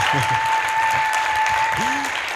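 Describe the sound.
Audience applause welcoming a speaker onto a church stage: continuous, loud clapping throughout, with a steady high tone and a few voices mixed in underneath.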